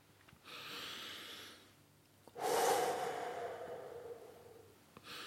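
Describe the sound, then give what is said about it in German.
Deep breathing meant to cure hiccups: a soft drawn-in breath, then a louder, long exhale that slowly fades, with another breath just starting at the end. “Noch ein paar Atemzüge mehr können nicht schaden.”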